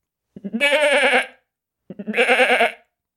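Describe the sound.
A human voice imitates a goat bleating. Two separate, loud, wavering bleats with a shaky vibrato are each preceded by short stuttering onsets, with a pause between them.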